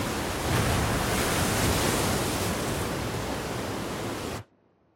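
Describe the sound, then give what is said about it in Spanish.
Waves breaking forcefully on a small strip of wet sand in a cove beneath cliffs, heard as a loud, steady, rushing roar with little variation that cuts off abruptly just before the end. “Las olas rompen con fuerza sobre la poca arena húmeda que queda en el entrante del acantilado.”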